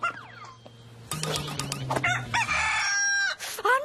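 Chickens cluck in short, choppy bursts while a rooster crows with a loud, drawn-out call, the farmyard fowl sounds overlapping in a busy mix.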